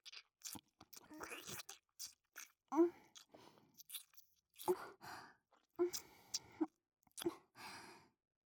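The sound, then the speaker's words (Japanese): Lips gently nibbling the outer ear: many soft, moist mouth clicks, smacks and crunchy nibbles in an uneven rhythm, mixed with faint breathy sounds, all fairly quiet. “こうやって耳の外側を優しく唇で噛むようにしてあげれば、舐められてる人はリラックスできるし”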